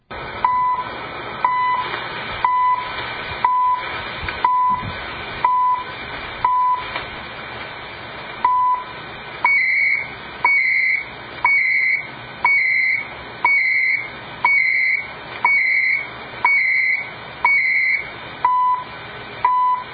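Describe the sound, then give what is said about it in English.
A shortwave time signal station sends short beeps once per second over steady radio hiss. About halfway through, each second gains a higher, longer tone alongside the tick, then the plain ticks return at the end. “let's see what CHU sounds like according to YouTube”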